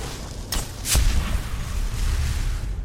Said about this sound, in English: That bloody fire spell.